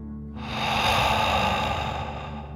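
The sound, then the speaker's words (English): A deep breath drawn in and pushed out through the mouth, as in a children's calming meditation imitating a dragon breathing fire. It is one long, breathy, steady rush of air that begins after a short silence and stays fairly loud to the end. “imagining you are breathing fire like a dragon. Ready? Deep breath in and out.”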